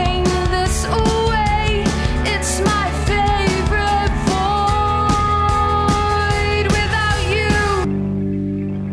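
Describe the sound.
A full-band song by a Belfast-based band plays on radio, a dense, loud mix with steady rhythmic hits and sustained melodic lines, cutting off near the end to leave a lingering low tone.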